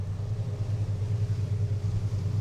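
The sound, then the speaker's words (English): A car ferry bound for the island of Hvar gives off a steady, deep engine rumble with a low droning hum and no breaks. “I've driven down from Knin, and I'm now on a ferry heading for the island of Hvar.”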